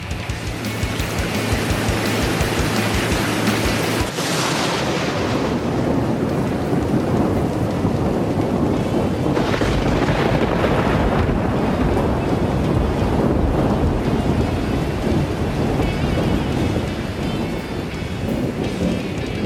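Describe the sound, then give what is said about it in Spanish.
Activated fire sprinklers spray water in a loud, steady hiss and roar of falling droplets. The sound is dense and unbroken for the full length, with only slight surges in intensity. “¡Me estoy mojando! ¡No me gusta el agua! ¡Los peces se están mojando! ¡Corred a salvarlo! ¿Pero qué coño ha pasado? ¡Se han activado los aspersores antiincendios!”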